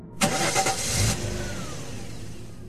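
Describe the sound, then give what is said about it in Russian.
A car engine starting after some difficulty, with a few rough, sputtering bursts of cranking that catch and then ease into a steadier, fading idle hum. “Двигатель завелся не сразу.”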